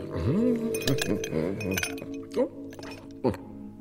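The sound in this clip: Three small ice cubes clink into a glass, producing bright, sharp tinkling hits scattered across a few seconds, with people talking throughout.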